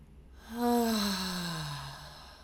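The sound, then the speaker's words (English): A deep, voiced exhalation through the mouth, like a sighing "ha", that swells quickly and then trails off slowly as its pitch falls, heard alone and fairly soft. “filling the belly with air, feeling the stretch across the diaphragm. And then exhale a ha through the mouth.”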